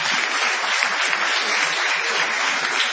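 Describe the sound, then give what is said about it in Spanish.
Audience applause greets a performer at a live theatre stage show: a dense, steady wash of many hands clapping that holds an even, fairly loud level from start to finish, with no single claps or voices standing out. “Extendamos el entusiasmo para ovacionar a Patricio Barton. ¡Bravo!”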